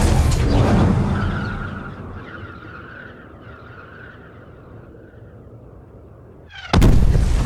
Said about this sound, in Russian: Посреди двора падает бомба и разверзается ад. Взрывной волной качнуло стены.